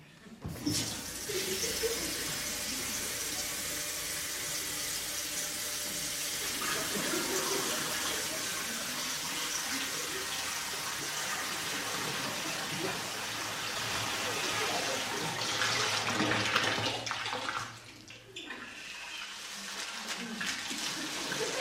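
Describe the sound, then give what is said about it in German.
Water runs from a tap into a bathtub with a steady, broad rushing hiss that lasts the whole time, dips briefly in level near the end, then carries on. “Ich lasse jetzt das Wasser ein.”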